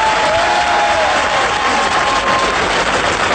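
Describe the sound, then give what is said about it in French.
Dense, loud applause from a television show's audience, clapping steadily throughout without a break. “je vous demande d'applaudir Richard Boranger”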